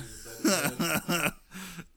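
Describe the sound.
Throat clearing thick with phlegm after eating chili: a few short, rough voiced bursts in quick succession, followed by a softer final one.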